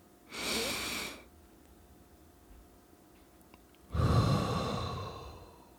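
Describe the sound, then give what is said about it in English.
A deep breath taken in during a guided relaxation exercise, a soft airy inhale lasting under a second, then about three seconds of near silence while it is held, followed by a louder, longer exhale that trails away slowly. “So you're going to do a deep breath, hold it for a few seconds, and then we'll let it go.”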